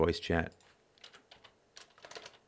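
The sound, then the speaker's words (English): Rapid typing on a computer keyboard: many quick, uneven clicks and taps in loose bursts, following a short bit of speech at the start. “Now you know how fast I type.”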